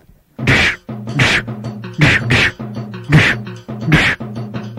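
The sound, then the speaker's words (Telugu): Fists thump repeatedly on someone's back in a series of dull, separate blows, each a short burst. A voiced, groaning tone sounds steadily between the strikes. “అబ్బే ఇవేం గుద్దులు, ఇట్లా single single గా గుద్దితే నా ఒళ్ళు నొప్పులు ఎట్లా తగ్గుతాయి?”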